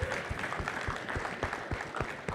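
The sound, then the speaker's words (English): After a presentation, the audience gives a round of applause: soft, steady clapping from many people, with faint thumps recurring throughout. “Y'all give another round of applause for that, man. That was fantastic.”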